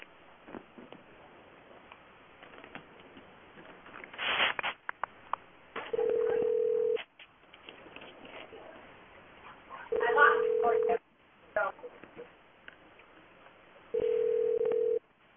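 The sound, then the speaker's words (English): A telephone dialing out on an outgoing call: three steady, even ring tones at regular intervals, with muffled low talk and line noise between them. “Yo, I think it's dialing out.”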